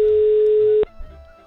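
Telephone line tone on a call to a village mayor in Săcășeni, Satu Mare, that goes unanswered: one steady, mid-pitched tone holds for under a second, then cuts off abruptly, leaving a low, quiet background hum.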